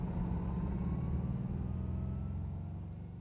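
A car engine gives a low, steady rumble as the car drives to a warehouse, with no voices, fading slightly toward the end.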